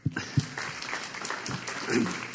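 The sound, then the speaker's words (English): A church audience applauds to welcome a speaker, with steady, dense clapping throughout and a few louder claps near the start. “So let's help welcome Michael McCord.”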